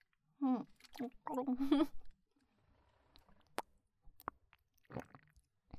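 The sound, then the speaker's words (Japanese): Wet mouth sounds of a drink being held in the mouth and swallowed: a few voiced gulping noises early on, then sparse, sharp clicks and faint squishes, all fairly quiet. “飲み物をねしっかりと 口にこう含んで、こう、”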